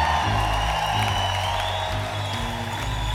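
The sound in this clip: Applause and cheering from an audience welcoming a trumpet player on stage at a live show with a horn section, a continuous, loud wash of clapping over steady sustained tones.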